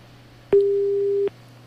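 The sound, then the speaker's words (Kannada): After a phone call is cut off, a single steady, mid-pitched electronic tone plays for under a second. A click marks its start and end over a faint low hum. “ಕರೆ cut ಆಯ್ತು ಅಂತ ಅಂದ್ಕೊಂಡಿದ್ದೀನಿ ಸ್ನೇಹಿತರೆ.”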